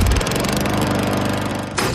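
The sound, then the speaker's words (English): A Gravely lawn mower engine runs loud and steady, a rough, throbbing drone that holds without pause and swells briefly near the end. “When you see a Gravely, you're seeing greatness at work. Take your lawn mowing up a notch with a Gravely.”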